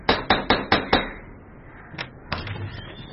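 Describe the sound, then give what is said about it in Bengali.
A door knocker raps on a door: five quick, sharp, evenly spaced knocks, a short pause, then two more somewhat softer knocks. “দরজায় কড়া নাড়ার শব্দ।”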